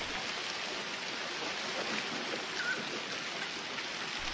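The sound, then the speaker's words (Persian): Heavy rain pours down during a storm over forest and mountains, a dense, steady hiss that holds even and unbroken throughout with no voices. “باران شدیدی میباره.”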